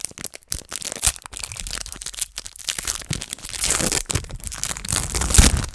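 A trading card booster pack being opened, giving a steady crinkling, crackling rustle with tearing and crunching bursts that grow denser and louder toward the end.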